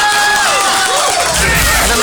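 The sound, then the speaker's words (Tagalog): A loud crowd cheers and claps for the Eastern Mindanao Command at a military event, a dense, continuous wash of noise with a few raised voices mixed in. “Na mahigala ito ang hatagan o masigabong palakpakan na ito ang Eastern Mindanao Command.”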